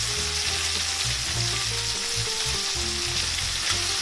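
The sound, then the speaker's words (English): A lime butter caper sauce sizzles in a pan, a continuous bright crackling fry that stays even in loudness from start to finish, with no talk. “Capers. So this is a lime butter caper sauce.”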